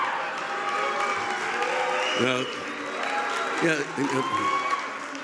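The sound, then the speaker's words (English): Crowd booing in a part of the country whose fans belong to the Dallas Cowboys: a sustained, loud crowd roar with voices rising through it and swelling in a few places. “Those who are booing have moved here from another city, and have not been genetically altered.”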